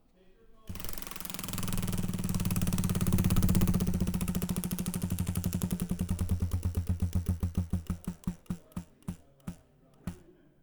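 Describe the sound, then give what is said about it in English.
A spun wheel clatters in a fast, dense stream of clicks that gradually slows, the ticks spreading farther apart until only a few isolated clicks remain as it comes to rest. “Let's see, let's spin the wheel, and...”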